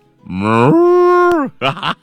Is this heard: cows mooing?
yes